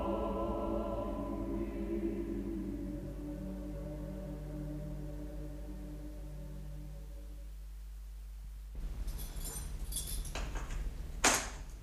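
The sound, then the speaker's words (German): Dishes clatter and clink as they are washed, a short burst of knocks and rattles in the last few seconds after a steady tonal background. “Ich habe schon angefangen, das Geschirr zu spülen.”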